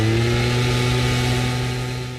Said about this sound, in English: a gas-powered leaf blower